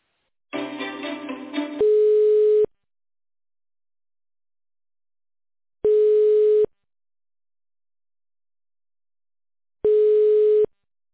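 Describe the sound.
Telephone line tone during a call transfer: three long, steady, mid-pitched beeps spaced evenly about four seconds apart, the first preceded by a brief muffled burst of sound, with silence between them.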